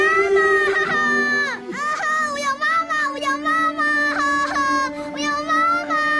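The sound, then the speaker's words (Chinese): A young boy crying after being hit, with high, wailing sobs in repeated bursts broken by short catches of breath, loud and tearful throughout. “小伟乖，不哭了啊，不哭了。平平，你怎么能打弟弟呢？”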